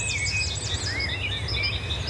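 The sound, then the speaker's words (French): Wrens and warblers sing in an orchard beside a garden on a clear morning, with continuous high-pitched chirps and trills overlapping faintly above a steady low rumble. “Ah, les troglodytes, les fauvettes.”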